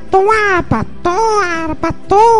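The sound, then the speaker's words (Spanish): Babies cry in loud, high, wavering wails. Three longer cries are broken by short gasping sounds between them. “aquí como voy a presentar ahorita unos niños llorando ahí, puro teta”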